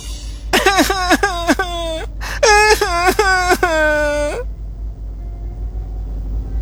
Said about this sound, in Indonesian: Jadi dia mulai menangis.